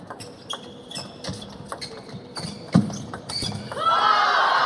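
A table tennis ball bounces during a serve in a match, making a few light, sharp taps spaced apart, followed by a louder, steady stretch of background sound.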